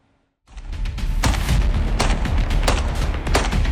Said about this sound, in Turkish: Muhtar havaya ateş açtı. 17 yaşındaki genci yaraladı.